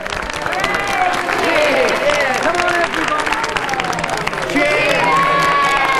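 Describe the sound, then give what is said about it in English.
Villagers applaud and cheer at a wedding: dense, steady clapping runs throughout, mixed with many excited shouting voices rising and falling above it. “As the villagers applaud, Rupert gives Stitches his coin back.”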